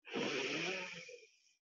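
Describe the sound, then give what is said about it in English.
A deep inhale through one nostril during an alternate-nostril breathing exercise: one soft, airy breath with a gentle hiss, lasting well over a second and fading out. No voices are heard. “So just seal off your nostril, take a deep breath in.”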